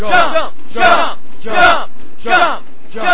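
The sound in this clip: A wrestling arena crowd shouts encouragement in unison, a rhythmic chant of five loud, evenly spaced bursts with short gaps between them.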